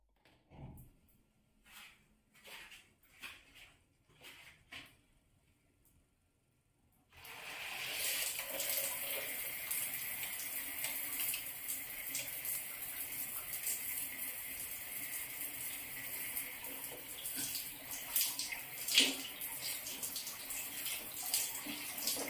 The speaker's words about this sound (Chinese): 我去洗澡啦。